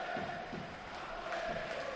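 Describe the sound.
A football crowd of over 40,000 fills Mestalla stadium during a match against Mallorca. The massed murmur and roar stay steady throughout, fairly faint and without clear peaks.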